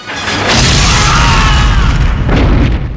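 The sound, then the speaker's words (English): A billowing explosion from Rambo's explosive arrow tears through a group of soldiers in a film. A deep, loud boom swells and rumbles on, and a second surge of blast noise follows near the end. “The billowing explosion takes out three soldiers.”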